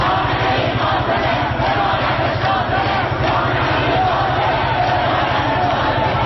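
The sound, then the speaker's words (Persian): University students chant slogans at a protest in Iran, a dense crowd of voices shouting in unison, loud and continuous without pause throughout. “هم در صحن این دانشگاه راهپیمایی کرده و شعار دادند و سرود همراه شو عزیز را با پلاکاردهای حاوی اسم ژینا یا همان مهسا امینی در دست داشتند. آنها در شعارهایشان رهبر جمهوری اسلامی را هدف قرار دادند.”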